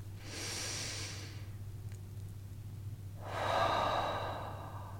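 A slow, deep breath: a long airy inhale, a quiet pause, then a longer, slightly louder exhale, heard alone over a faint steady low hum.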